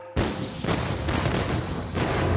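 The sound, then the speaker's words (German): Artillery opening fire in a battle sound effect, a dense roar of overlapping booms and blasts that bursts in abruptly and stays loud and sustained throughout, with no talk. “Die Artillerie eröffnet das Feuer.”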